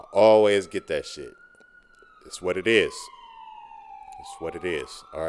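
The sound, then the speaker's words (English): Sirens passing in the background, a thin steady wail that drifts slowly lower in pitch and lingers beneath a man's casual talk. “excuse the sirens in the background”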